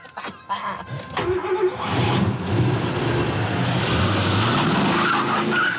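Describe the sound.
A car driven fast: a few sharp knocks and a brief rising engine note at the start, then a loud, sustained roar of engine and tire noise that stays strong and even to the end.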